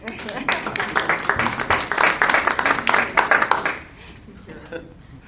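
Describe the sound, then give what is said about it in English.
Scattered clapping from a small group at a city council meeting sounds as distinct, uneven hand claps for several seconds, then stops abruptly and leaves quieter room sound with some talk. “How about a round of applause?”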